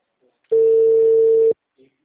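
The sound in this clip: A single steady electronic telephone tone sounds while a call is being placed. It is flat in pitch, lasts about a second, and is surrounded by faint brief sounds.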